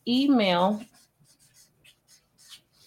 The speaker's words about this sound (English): So let's write some up here. Let me write them real quick.